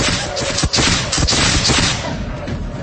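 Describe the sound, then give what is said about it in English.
Volley of gunfire from a platoon: loud, densely overlapping shots that merge into a continuous crackling roar and ease off slightly toward the end. “Present! Fire! Fire in the hole! First platoon! Independent! Fire at will!”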